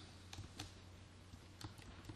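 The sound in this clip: Soft computer keyboard clicks as someone types a place name, a few light, irregular keystrokes, very faint over low hum.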